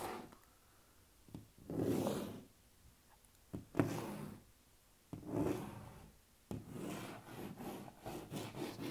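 Scratching on objects by hand: faint rasping, scraping strokes, first a few separate bursts and then a longer, denser run of scratching, with no voices.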